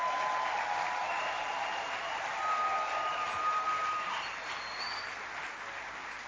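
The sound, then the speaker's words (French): A church audience applauds God, a broad, sustained clapping that swells slightly in the middle and carries on steadily, with faint ringing tones over the crowd noise. “Ça vaut la peine d'acclamer ce Dieu-là.”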